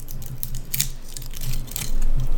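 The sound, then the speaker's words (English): Crinkling foil on a corked bottle, a close run of many small dry crackles and crumpling rustles of varying loudness, alone. “Crackly foil. The foil is even a little different.”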